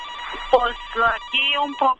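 A phone rings for an incoming call, a few short pitched ringtone tones with steady, stepped notes, moderately loud and alone.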